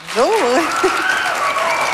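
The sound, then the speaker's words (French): Audience applause greets a naturalist introduced as a guest on a show, a dense, even patter of clapping that fills most of the two seconds, with a brief voice sounding at the start. “On l'applaudit?”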